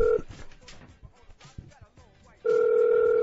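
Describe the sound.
Ringback tone on an unanswered telephone call: a steady mid-pitched buzz cuts off at the start, muffled voices fill the gap, and then the tone sounds again, loud and even, for nearly a second.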